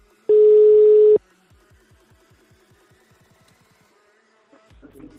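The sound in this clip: A telephone dial tone sounds during a phone call: one steady mid-pitched tone lasting about a second cuts off sharply. A quick run of faint, evenly spaced clicks follows, and a short burst of noise comes at the end.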